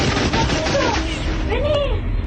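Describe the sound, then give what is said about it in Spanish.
A sustained burst of gunfire in a Spanish-language radio drama makes a dense, continuous loud rattle with no separate shots standing out. A voice is briefly audible over it. “Desde afuera, la segunda ráfaga quería asegurar la muerte de Juan y Favalli.”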